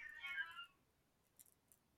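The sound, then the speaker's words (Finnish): A single cat meow, fairly faint and under a second long, followed by near silence with a couple of tiny ticks. “Kissa. Kissa, joo.”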